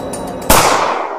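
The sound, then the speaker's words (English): A single pistol shot fired far off in a jungle: one sudden sharp crack with a long, fading tail. “he heard, far off in the jungle, the faint report of a pistol.”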